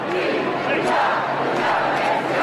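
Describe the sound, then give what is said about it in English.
Demonstrators in the streets of Barcelona cheering Carles Puigdemont, a loud, sustained roar of many voices shouting together that holds steady throughout. “Demonstrators in the streets of the Catalan capital, Barcelona, have alternated all day between cheering Carles Puigdemont”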